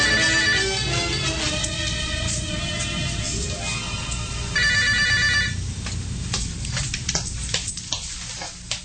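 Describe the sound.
A telephone rings with steady, repeated electronic tones that hold through the first half, then give way to a few sharp clicks and a quieter stretch, with no voices.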